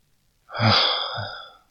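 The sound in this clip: A single soft breath is blown out, a warm, airy whoosh that swells quickly and then thins away over about a second, with no voice.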